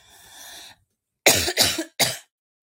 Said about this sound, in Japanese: ああ、咳が辛い。